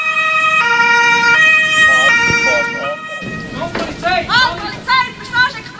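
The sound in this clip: A police car siren during a car chase with a fleeing vehicle alternates between high and low tones in a loud, steady two-tone pattern, then shifts to a busier, warbling sound with rising and falling sweeps.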